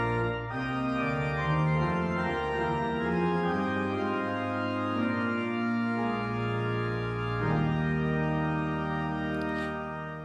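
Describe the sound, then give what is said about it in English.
Church pipe organ playing full, sustained chords with rich, bright harmonics, holding long tones that shift to new chords a couple of times, alone and steady in volume. “That's the sound of an organ in a church.”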